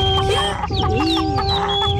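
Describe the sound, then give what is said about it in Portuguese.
Birds calling with shrill whistled chirps, quick sliding notes and clucking sounds, heard continuously over a steady tonal drone. “Já ouviste aqueles pássaros?”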